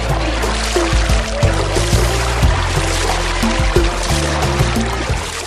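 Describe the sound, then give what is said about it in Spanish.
Water pours and splashes as people bathe in a desert oasis pool, a steady, dense wash of sloshing and trickling that runs through the whole stretch without pause. “¡Qué suerte hemos tenido encontrando este oasis! Cierto, amigo. Aprovechemos y bañémonos para quitarnos este calor de encima.”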